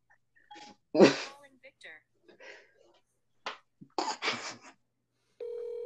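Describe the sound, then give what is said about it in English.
A phone call placed through Siri: short bursts of spoken voice, then a steady electronic ringing tone starts near the end and holds. “Hey Siri, call Victor. Like hey Siri, call Victor.”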